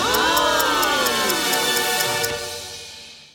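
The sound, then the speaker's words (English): A radio show sting jingle: bright synthesized tones sweeping up and down over a steady ticking beat, loud and continuous for about three seconds before fading out. “That's the sting”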